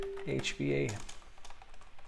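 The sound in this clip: Computer keyboard typing begins after a short stretch of talk, with soft, quick, irregular key clicks continuing to the end.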